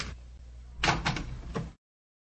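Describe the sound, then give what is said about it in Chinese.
A door being opened at the entrance to a house holding a feast: a few dull clunks and a scraping rattle after a quiet start, then silence, with no voices. “对不起啊，我马上开门啊。”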